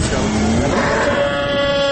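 Sheep bleating at a livestock market, a couple of long wavering bleats over a steady background hum, with no talk.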